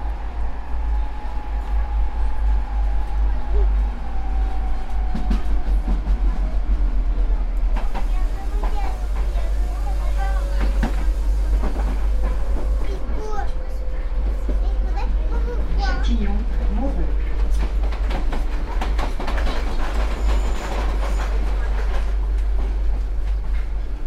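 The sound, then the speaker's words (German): A metro train rumbles steadily through a long left curve, a constant low roar with shifting wheel squeal tones layered over it, while people, including children, talk in the background. “Die Metro nimmt eine langgezogene Linkskurve.”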